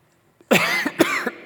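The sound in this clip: A man gags and coughs in a few harsh, loud bursts after a faint catch of breath, with throaty retching between the coughs.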